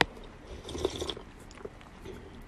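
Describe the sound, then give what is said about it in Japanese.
A soft sip of a dark, deep-roast seasonal blend coffee: one brief, quiet slurp near the middle of an otherwise hushed moment. “トンボという、え赤い糸コーヒーさんのブレンドをね、いただいてます。深入りですね。”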